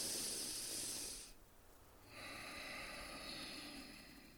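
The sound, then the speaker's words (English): Slow, deep mindful breathing by one person: two long, airy breath sounds separated by a short quiet pause, soft and hissy with no talking. “you can take three deep breaths slowly and mindfully within 30 seconds. Right. So yeah, it looks or sounds to your listeners like this.”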